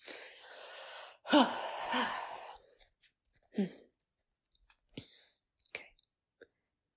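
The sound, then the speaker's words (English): A few audible voiced breaths are taken during a relaxation exercise. A breathy exhale is followed by a louder, longer sighing breath and then a short breath. A few faint clicks come after. “Take a couple of vocal breaths here.”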